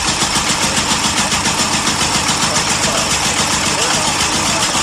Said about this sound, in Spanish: Es el sonido original del coche del que estamos hablando.